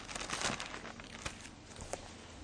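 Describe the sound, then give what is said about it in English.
Bible pages are turned, a soft papery crinkling and rustling with a few sharper flicks as the sheets move. “I draw your attention to Romans chapter 8, if you just flip over the page.”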